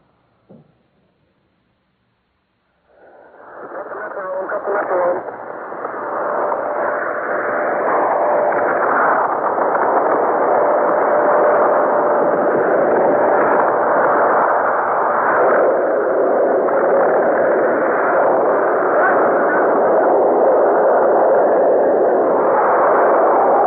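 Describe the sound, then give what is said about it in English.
Atomic bomb blast at Bikini lagoon: after a brief click and near silence, a loud, broad, muffled roar rises abruptly and holds steady as a continuous rumble for about twenty seconds. “We now bring you the recording of the bomb's blast at Bikini.”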